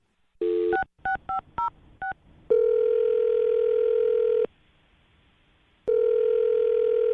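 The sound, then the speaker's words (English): Touch-tone keypad beeps as a phone number is dialed, a rapid series of short tones, followed by two long, steady ringing tones separated by a silent pause; no one speaks. “I'm going to dial the number now. Here we go.”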